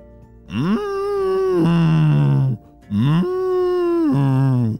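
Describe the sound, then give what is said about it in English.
A big black and white cow mooing on a farm: two long, loud lowing calls separated by a short gap, each rising at the onset, holding steady, then dropping to a lower, grating tone before cutting off. “It made Dre a little nervous of this big, ginormous black and white animal that he had never seen”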